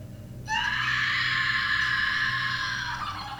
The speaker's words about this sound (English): Oh, good scream.